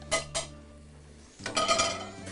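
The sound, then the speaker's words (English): Garlic going into a pan for grilling, ahead of shrimp and scallop skewers: two sharp metallic clinks, a short lull over a low hum, then a longer burst of clattering and rattling, all fairly faint. “We're going to grab our pan and our garlic, okay? I'm gonna put our garlic in here.”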